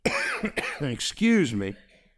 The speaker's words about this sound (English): How many of you fighting this cough right now? Yeah, I've been fighting it for a few days. I feel great. I just can't shake the cough.